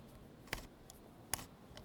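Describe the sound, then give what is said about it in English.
Two sharp, bright clicks as the last casing screw is taken out of a bomb panel, spaced under a second apart, with a few fainter ticks between and after them and no talk over the sounds. “And I'm just taking out the last casing screw now.”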